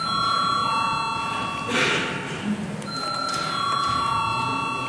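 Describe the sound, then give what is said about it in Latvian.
A parliament bell rings before a vote: a steady electric buzzing ring with bright tones that breaks off briefly partway through, then resumes. “Paldies ziņotājiem, lūdzu zvanu.”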